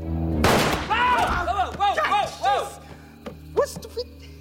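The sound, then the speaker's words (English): A gunshot as one man shoots another, heard as a single sharp, loud blast early on, followed by several voices talking. “Big Bunny looks at Cyrus, who then shoots Cordell.”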